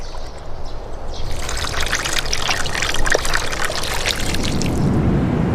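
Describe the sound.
Peach blossom wine pours steadily into a wine jar, a continuous splashing trickle of liquid that stays even and fairly loud for the whole stretch.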